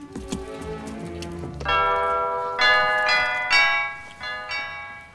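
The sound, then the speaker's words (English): A doorbell rings at a front door with a few bright chime strikes, each with a ringing tail that fades slowly and overlaps the next. The strikes are moderately loud, and a low murmur comes before them. “He rings the doorbell.”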